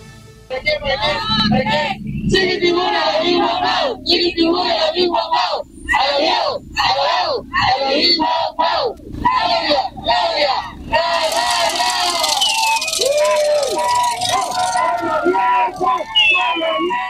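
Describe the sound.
A large crowd cheers and chants to welcome President Claudia Sheinbaum at her rally in Veracruz for her second government report. The loud, dense roar of voices runs the whole clip, with rhythmic chant bursts and yelling.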